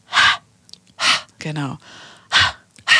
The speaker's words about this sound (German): wir nennen das Hissing, das heißt ein ganz starkes Ausatmen ohne Stimme. Das ist nämlich wirklich nur Atem, das ist keine Stimmgebung.